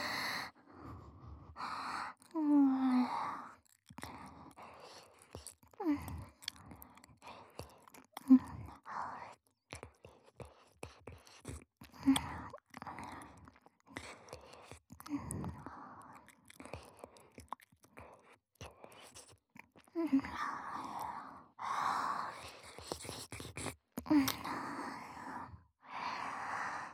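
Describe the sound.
Wet, close-up ASMR mouth and saliva sounds right by the ear: many sticky clicks, smacks and slurps in an irregular rhythm, broken by soft breathy passages and a few louder wet bursts.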